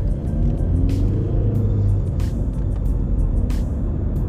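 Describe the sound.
Steady low engine rumble from a car being driven, continuous and fairly loud, with a few brief higher hissing noises passing over the top.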